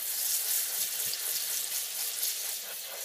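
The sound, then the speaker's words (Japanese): Water running steadily over hair and scalp as it is rinsed before shampooing, a continuous hissing, splashing wash of even loudness with slight fluctuations. “十分に潤わせてからじゃないと、うまくシャンプーができないので、このままじっくりと流していきますね。”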